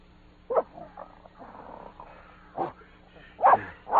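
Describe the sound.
Dog on a leather leash giving a few short yips and barks in brief bursts, with softer whining between them.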